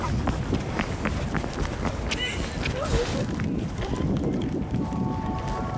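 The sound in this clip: Quick running footsteps cross an open square: many rapid, light steps in a fast, even rhythm, fairly faint against a noisy, windy background.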